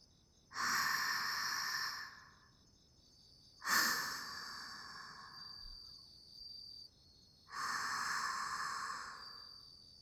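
A person takes light, airy breaths: three soft, hissy breaths, each lasting one to two seconds, with quiet pauses between them.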